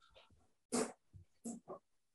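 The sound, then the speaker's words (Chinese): A pet dog vocalizes at home in a few short, fairly loud bursts, the first the strongest, separated by brief pauses, with fainter sounds before them. “哎，我们家的狗啊，我就要放了出来。妈咪啊，这狗狗又有意见了，出来吧。”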